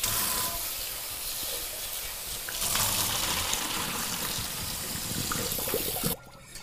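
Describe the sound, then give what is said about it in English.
Water pouring out as cooked tortellini is drained, a steady hissing gush that holds for several seconds and then cuts off abruptly near the end. “I'm going to go ahead and drain this, the tortellini here.”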